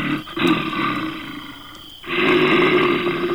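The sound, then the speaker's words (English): A bear roars behind a tent at night: two loud, deep, rasping growls separated by a short pause. “Wait, is the noise coming from over there? There's a bear right behind his tent?”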